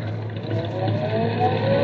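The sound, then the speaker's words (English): A car engine accelerates during a driving lesson with a clutch and gas pedal. It makes a steady, dense hum whose tone climbs gradually as the revs build, with no talk. “Now easy on the clutch and light on the gas.”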